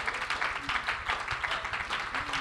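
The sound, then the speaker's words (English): A church audience claps its hands to the Lord, a faint but steady and rhythmic clatter of many palms that continues throughout. “Clap your hands one more time to the Lord.”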